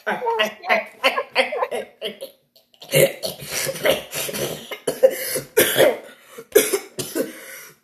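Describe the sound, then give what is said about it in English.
Coughing from someone who nearly choked on something stuck in the throat: several hard, rough bursts, a brief pause, then a longer, uneven run of loud coughs. “I got something stuck in my throat for a second, I'm sorry. That wasn't a joke. I think I almost choked on something.”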